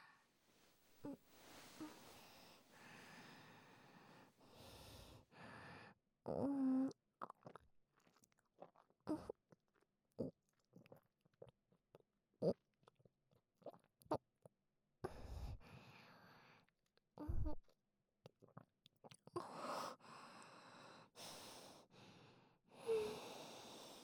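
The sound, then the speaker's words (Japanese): Close ASMR mouth sounds with wet smacking, swallowing gulps and breathy snorts, a scattered run of many soft clicks and sharper bursts that is mostly without speech. “ではこちら、すべてごっくんさせていただきますね。”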